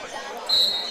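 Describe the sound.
Basketball dribbled on a high school gym court during the fourth quarter of a game: a single dull bounce over a low, continuous crowd hum.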